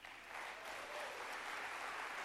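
Audience applause greets two elders as they are welcomed onto a stage, a dense, steady clapping that holds at an even level from start to finish.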